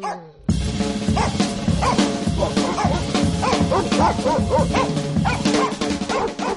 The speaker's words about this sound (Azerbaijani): İtlər də onu yarı yolda haqladılar.